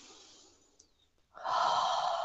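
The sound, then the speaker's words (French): A long, airy breath during a connected-breathing exercise, inhaling with no pause between breaths. It starts abruptly after a quiet stretch and then continues as a steady, full rush of air to the end. “je vais connecter en fait cette respiration et je vais supprimer la pause. Donc, je vais inspirer et tout de suite inspirer.”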